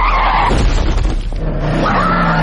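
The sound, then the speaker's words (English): Car tires skidding as the brakes are hit hard: a loud, continuous, harsh tire screech that squeals through the whole clip, with shifting tonal whines over a low rumbling road noise. “I hit the brakes.”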